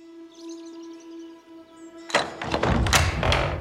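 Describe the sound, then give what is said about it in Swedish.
Heavy gate of an old Gothic stone building being opened: a soft sustained tone gives way to a sudden loud thunk, followed by rough scraping and knocking as the gate moves. “Den tunga porten öppnas och jag välkomnas in i byggnaden.”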